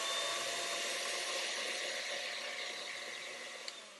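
Electric hand mixer with beaters running in cake batter, a steady, loud whirring motor hum with a hissy edge, heard alone with no talk and easing slightly in level near the end.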